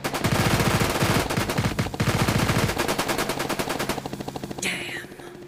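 Rapid automatic gunfire aimed at a man fleeing across a rooftop: long, loud bursts of many repeated shots that later thin to sparser shots.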